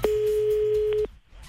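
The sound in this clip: Ringing tone heard while placing a phone call: one steady, mid-pitched tone lasting about a second, then it stops, with a low background sound underneath.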